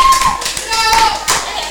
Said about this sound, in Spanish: Un aplauso para la señora aquí. Y para la señora que ya tuvo su hijito, qué lindo.